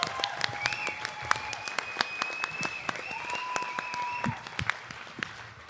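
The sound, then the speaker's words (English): Applause for two teams after a game round, a scattered run of distinct claps rather than a dense roar, with voices sounding over the clapping. “I think everybody owes them a big round of applause because this is a fun-ass round.”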